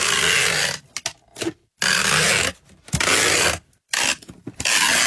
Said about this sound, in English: That sounds like sticky tape. Or yeah, tape. Packing tape. Yeah. That's it.